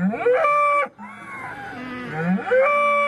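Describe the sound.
A bull moos in two long, loud, deep calls with strong harmonics, the second drawn out well past the first.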